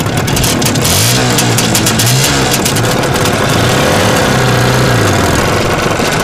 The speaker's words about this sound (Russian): Сидит в коляске заведенного мотоцикла.